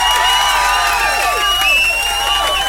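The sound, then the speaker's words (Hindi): A loud crowd cheers and shouts, with shrill overlapping voices and whistle-like tones sustained at a steady level throughout. “और आप सभी के लिए जोरदार तालियां”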